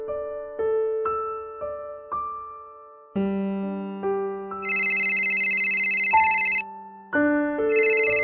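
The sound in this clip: An electronic telephone ringtone announcing an incoming call: a bright, plucked-sounding melody of stepped notes. Partway through, a shrill high trilling tone joins and returns in repeating bursts.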